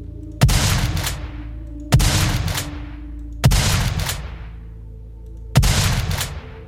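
Gunfire sound effect: four loud, sharp gunshots, each followed by a long booming tail that slowly fades, spaced unevenly with gaps of one to two seconds and no other sound between.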